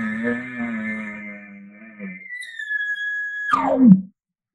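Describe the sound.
An elk bugle is imitated through a call tube, opening with a low, buzzy lip-ball growl under a high whistle. The whistle then holds alone as a clear, piercing tone and ends in an abrupt, sharp downward drop.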